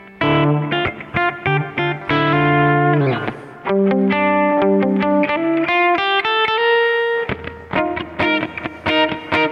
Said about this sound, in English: I'm playing my Firebird, and I'm doing it through a 65 Deluxe Reverb profile from Sela Sounds. So this is my clean tone.